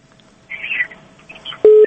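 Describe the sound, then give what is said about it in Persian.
A telephone line tone sounds as a radio call-in show connects a caller. A few soft electronic chirps come first, then one loud, short, steady beep near the end. “بله حالا یک تماس را میگیریم. بفرمایین صاحب.”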